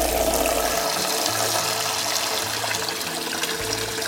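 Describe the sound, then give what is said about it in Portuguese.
Tap water running while large artichokes are washed: a steady, loud rushing flow with slight shifts in the splashing as the stream strikes the vegetable, with no talk. “primeiro lavar as alcachofras. Alcachofra é essa florzona aqui, né? É grande, olha só. Vamos lavar bem ela.”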